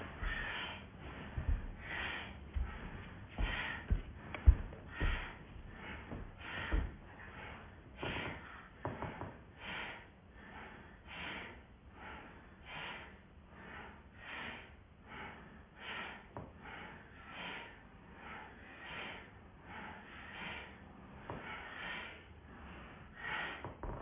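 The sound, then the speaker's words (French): Bhastrika bellows breathing, a yoga exercise: many forceful, rhythmic breaths pumped at a fast, even pace, each a sharp breathy burst, continuing steadily throughout with no talking. “Voilà, puis de nouveau, le souffle de Bastrika.”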